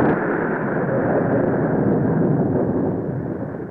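A loud bomb-like explosion rumble, a dense roaring wash of noise that holds steady for several seconds and eases slightly toward the end.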